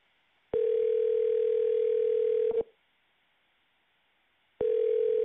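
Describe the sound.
A telephone dial tone sounds before a three-way call is placed: a steady, single-pitched electronic hum that runs for about two seconds, breaks off into silence, then starts again, with no voices.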